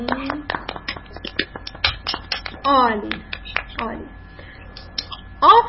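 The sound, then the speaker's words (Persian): Children clapping their hands for a classmate: irregular, scattered claps and sharp taps of varied loudness, with children's voices talking in between. “آه حالا دست میزنیم برای امیر سلام.”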